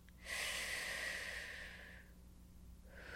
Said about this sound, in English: take a breath again.